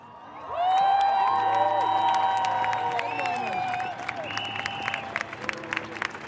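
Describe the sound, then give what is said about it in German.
Cheering and applause burst from a packed crowd at a global climate strike rally on Munich's Königsplatz. They rise at once to a loud, dense roar with shouting, then thin after about four seconds to scattered claps and calls. “Es ist voll am Münchner Königsplatz. So voll, dass ich die Sprecherin von Fridays for Future vorne auf der Bühne kaum erkennen kann.”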